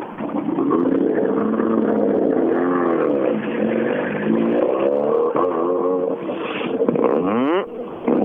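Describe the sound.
A Toyota Corolla race car drives past, its engine a loud, continuous rasping drone whose pitch wavers as it revs, then climbs sharply near the end.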